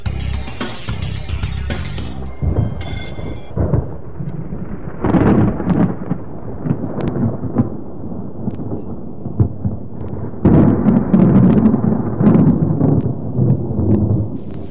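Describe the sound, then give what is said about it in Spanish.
A thunderstorm with rain falling: a dense, continuous hiss of rain carries on throughout, while deep rolling rumbles of thunder swell and fade, growing loudest near the end. “Y eso me recuerda que pronto va a llover.”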